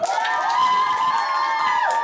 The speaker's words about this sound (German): Wir haben es geschafft. Wir haben alle gewonnen. Applaus für uns alle.